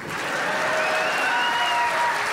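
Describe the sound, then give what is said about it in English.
A theater audience applauds at a live comedy event, producing dense, steady clapping that holds at an even, fairly loud level for the whole stretch. “Applaud again.”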